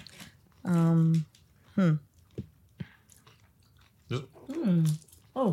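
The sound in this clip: Chewing and crunching as someone eats flatbread topped with a creamy salsa, giving short moist bites and clicks. Brief voiced murmurs come between the chewing sounds.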